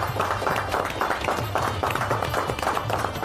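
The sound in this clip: Audience clapping at an Eid gathering to honour a respected elderly music master, a dense, steady patter of many hands with a loose rhythmic pulse and no voices.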